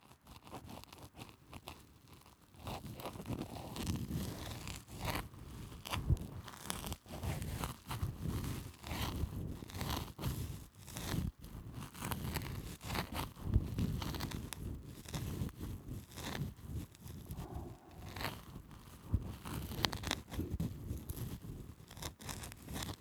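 Crackly scratching of an ear pick working dry earwax off the ear's surface: close, faint, and made of many irregular crunchy strokes and rustles, with no talking.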